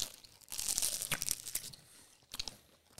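Tearing of a soft cardamom bun pulled in two by hand, with a few faint crunchy, crackling rips in quick bursts and no talk.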